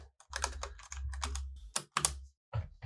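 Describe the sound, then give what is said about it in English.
Keys clatter as someone types on a computer keyboard, searching for a noise rock band online. Quick bursts of keystrokes come in uneven runs broken by brief silent pauses. “You can't just type in Health because it's like stylized in all caps, but I found their Wikipedia article”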